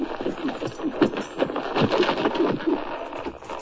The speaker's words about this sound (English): Rider coming in, Charlie.